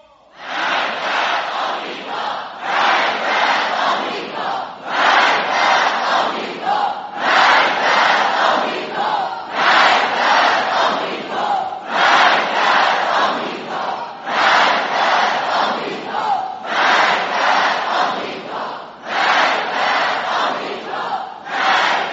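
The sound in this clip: A large crowd chants the slogan death to America in unison. Loud, rhythmic surges of massed voices repeat many times at a steady pace.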